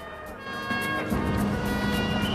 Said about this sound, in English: A car drives along a road, running beside a pair of floodlit tennis courts.